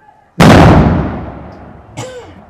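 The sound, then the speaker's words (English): A loud explosion, likened to a hand grenade or dynamite, strong enough to shake the whole house: one sudden, heavy boom that rumbles and decays over about a second and a half, followed by a smaller second hit. “like hand grenade or something? Dynamite, the whole house shook.”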